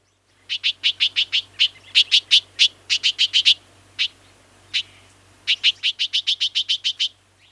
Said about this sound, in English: Both males and females utter these harsh, raspy calls to defend their territory or to scold intruders in the backyard where they have a nest in a nearby bush.